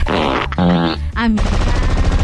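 A machine-gun sound effect set off by a live-stream gift: loud, rapid-fire bursts that follow a few brief tonal blasts at the start.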